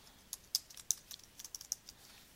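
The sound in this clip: Typing on a computer keyboard to enter an event title in a calendar app. A quick, faint series of about a dozen crisp keystrokes comes in irregular rhythm.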